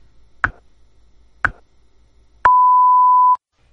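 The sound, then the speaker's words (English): A radio time signal marks the top of the hour. Two short pips sound one second apart, then a third pip runs into a longer steady beep lasting about a second. The tones are clean and stand alone. “At the tone, we've reached the top of the hour.”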